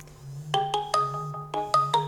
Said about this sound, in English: And I've got a phone call. I wonder who it's from.